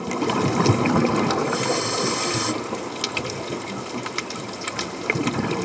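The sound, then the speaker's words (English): Underwater bubbling heard as a dense, steady wash of gurgling, rushing water noise that keeps up without a break from start to end, with no voices. “Hey, sounds like we're underwater.”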